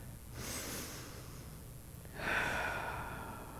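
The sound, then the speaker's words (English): Two deep breaths, quiet and airy. The first is brief and the second is longer and more sustained. “Let's take a deep breath.”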